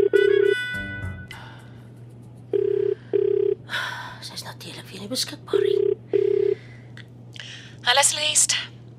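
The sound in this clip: A telephone rings in short double bursts, a steady mid-pitched tone repeating a few times over a constant low hum, with brief shuffling sounds and voices between the rings.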